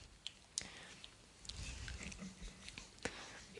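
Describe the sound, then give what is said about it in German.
A video game character eats food with quiet chewing and biting sounds, soft wet mastication broken by a few small clicks and crunches, steady and low in level throughout. “Ja, hier haben wir noch Essen. Das, das esse ich jetzt schnell.”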